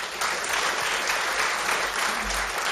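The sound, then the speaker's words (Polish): An audience applauds with dense, steady clapping that fills the whole clip at an even, fairly loud level, with no clear pauses or individual claps standing out. “Brawa dla tego pana.”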